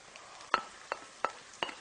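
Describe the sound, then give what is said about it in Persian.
Stirring in a pan as split peas go in with frying onions and meat: four sharp scraping strokes at an uneven pace over a faint, steady sizzle, with no talk. “حالا نوبت اضافه کردن لپه است”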